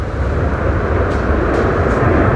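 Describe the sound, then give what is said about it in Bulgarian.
F-16 fighter jets take off from the Graf Ignatievo air base with a loud, continuous, roaring rumble that holds steady throughout, with no voices. “Току-що и втората двойка изтребители излетя тук от авиобаза граф Игнатиево. Първи във въздуха се извисиха изтребителите F-16, току-що това направиха и МиГ-29.”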